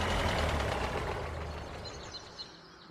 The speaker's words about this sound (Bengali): আমরা সিগারেট ধরিয়ে খবরের কাগজে পাতা উল্টাচ্ছি এমন সময় বাইরে একটা মোটর গাড়ির আসার শব্দ পেলাম।